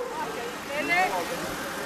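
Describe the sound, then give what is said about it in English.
A school bus pulls up at an island beach for a cleanup event, its engine rumbling low and steady at a faint level, with children's voices mixed in. “At the beach on the island of Roatan, a bus of school children is arriving.”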